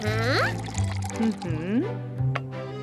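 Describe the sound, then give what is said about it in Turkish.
Milk is poured into a mixing bowl holding a creamy white batter mixture, giving a steady splashing pour with a few gurgling tones. “Şimdi de sıvı malzemeleri ekliyoruz. Sıvıları, yani süt ve yağ.”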